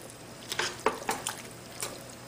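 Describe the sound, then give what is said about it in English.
Canned corn being stirred in a pan, with several faint scraping clinks of a utensil against the pan at an uneven pace, heard alone. “So I'm just gonna go ahead, give this a good stir.”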